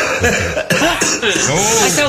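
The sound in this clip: A few coughs from a person with flu, short rough bursts mixed with voiced, speech-like sounds.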